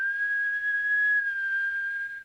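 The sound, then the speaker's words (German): Someone whistles a single sustained, clear high note for about two seconds, wavering only slightly in pitch and holding steady in loudness before cutting off. “Pfeifen.”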